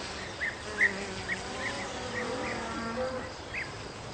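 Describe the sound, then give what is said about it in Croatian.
Flies buzzing in a countryside village, a faint, continuous droning hum broken by a few brief, slightly louder bursts. “naravno da mu smetaju muhe i da se ljuti”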